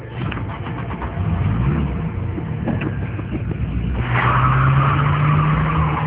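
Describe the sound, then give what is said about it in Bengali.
A car speeds along at night with its tyres skidding. A steady engine roar gives way to a rising engine whine and squealing tyres that hold to the end. “গাড়ি আগুনের মতো চলছে”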